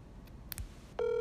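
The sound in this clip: Telephone keypad tones from a call placed with no caller ID: a few short dialing beeps, then a steady, loud ringing tone that continues unanswered to the end.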